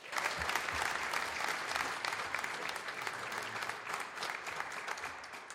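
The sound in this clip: A church audience applauds to welcome a guest speaker. Dense, even clapping runs without a break through the whole clip.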